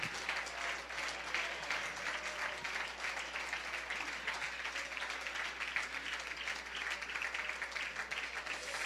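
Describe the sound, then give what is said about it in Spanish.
A church audience applauds during a worship service, a faint, sustained stretch of many hands clapping steadily at an even level for about nine seconds. “Démosle un aplauso de victoria a Cristo.”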